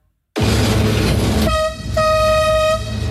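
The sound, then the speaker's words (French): Inside the driver's cab of the Petit train de la Mure in Isère, the engine roars steadily over the rails, then the horn sounds in two loud, steady tonal blasts above the ongoing rumble. “On entend beaucoup de bruit, c'est impressionnant une cabine de train comme ça. Effectivement, on a beaucoup de sons entre le bruit de la machine, le bruit des rails qui peut craquer un petit peu, le klaxon”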